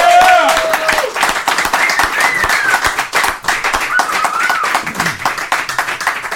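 Audience clapping and applauding for a DJ after his interview and set on a show, a dense, steady roar of many hands with a few shouts mixed in, loud throughout.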